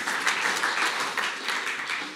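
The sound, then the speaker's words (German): Applause from listeners at a spoken talk: many hands clapping in a thick, steady patter with slight rhythmic pulses. It keeps a moderate, fairly even level throughout. “Dankeschön, Applaus für dich, du hast es super gemacht.”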